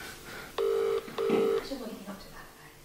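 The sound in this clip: Ringback tone of an outgoing phone call made during an interview: two short, low, steady tones in a quick double-ring pattern, followed by people talking.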